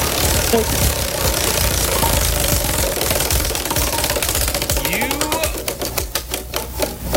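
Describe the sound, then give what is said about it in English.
A prize wheel spins and clicks, its rapid ticking emerging over a steady noisy background in the second half and gradually spacing out as the wheel slows. “Let's spin the wheel of resolution.”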